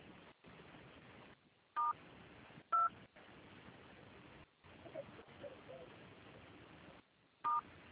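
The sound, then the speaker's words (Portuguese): Telephone dialing tones sound as a phone call is transferred: three short, sharp beeps spaced irregularly over a faint, hissy line. “Eu vou transferir o contato para o controle de qualidade, que dará continuidade à sua contratação.”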